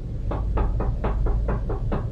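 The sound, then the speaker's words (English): Eight evenly paced knocks on an apartment door, crisp and moderately loud, ringing out over a low steady hum. “He had left the door open behind him and someone knocked.”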